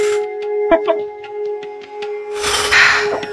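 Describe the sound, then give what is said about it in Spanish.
A deep breath comes as a single breathy rush of air lasting under a second, after a few soft short sounds over a steady low hum. “Son las 21:21, vamos a respirar profundo todos.”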